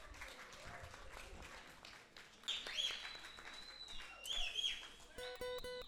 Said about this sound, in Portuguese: Palmas para os músicos e vamos lá vibrar.